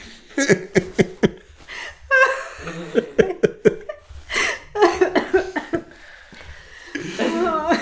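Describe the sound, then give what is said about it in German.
Someone coughs after choking on something swallowed. Several sharp bursts come in quick succession, broken up by breathy laughter and short vocal sounds. “Und dann verschlucke ich mich zum dritten Mal. Das kam du dem Nichts. Entschuldigung.”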